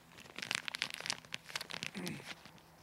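A plastic bag crinkles and crackles as someone fumbles to tear it open, many quick rustles and crunches in an uneven burst.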